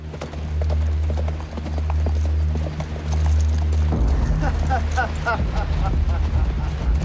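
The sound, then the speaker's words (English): Hooves clip-clopping as three horses are ridden toward the listener: many steady, overlapping hoofbeats continue throughout, over a constant low rumbling background. “Bowen and Kara watch as Einan, Brock, and Felton ride towards them.”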